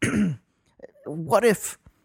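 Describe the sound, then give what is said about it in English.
A person imitates a short cough from smoking too much cigar smoke: one brief rasping burst, a pause, then a longer hacking, throat-clearing sound. “He pulls out a cigar, lights it, starts smoking. Too much smoke. Coughs a little bit.”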